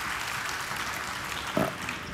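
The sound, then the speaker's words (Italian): Audience applause at a prize ceremony, a steady, even wash of clapping that holds at moderate level throughout, with one brief louder burst just past the middle. “E l'applauso del pubblico saluta queste.”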